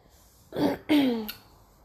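A person clears their throat in two rough, rasping bursts, the second longer and stronger than the first, with no talk around it.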